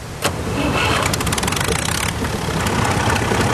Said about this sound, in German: Der Weg vom Haus zur Straße geht jetzt nur noch im Traktor.